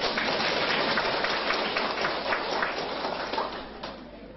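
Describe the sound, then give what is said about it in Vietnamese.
An audience applauds a speaker at a public address. The dense, continuous clapping is fairly loud and eases off slightly toward the end. No talking is heard over it. “Vỗ tay.”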